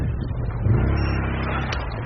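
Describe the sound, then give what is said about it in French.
A quad bike engine arrives during a battlefield evacuation of a wounded soldier, a steady low motor rumble that swells slightly midway and holds at a constant loud level throughout, with no voices. “Le quad surgit enfin.”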